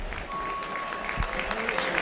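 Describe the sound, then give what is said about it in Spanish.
A football crowd applauds a player being substituted off, a steady, fairly faint wash of clapping with talk over it. “El otro que sale es Drews y aplaudido.”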